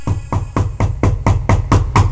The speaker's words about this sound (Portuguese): Batendo a porta.